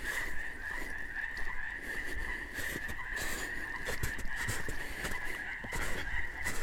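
Male birds sing together in rhythm on deep snow in the Pacific Northwest mountains during the breeding season. Their fairly faint chorus forms a steady high-pitched band with pulsing beats over a rough, noisy background.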